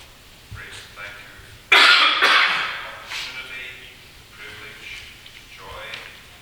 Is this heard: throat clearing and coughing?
yes